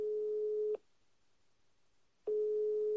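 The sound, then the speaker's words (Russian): A telephone line tone sounds while a call is being placed: a steady, mid-pitched beep cuts off, pauses for about a second and a half, then resumes. The tone is heard alone, with no voices. “Так что давай набираю, узнаем, как у них там дела.”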